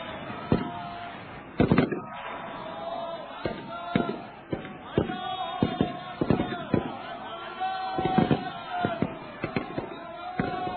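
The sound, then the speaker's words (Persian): Bursts of gunfire ring out in an Iran–Iraq war battle scene: many sharp, irregular cracks and bangs over a dense, rumbling din, with voices beneath. “صدای رگبار گلوله همه جا پیچید.”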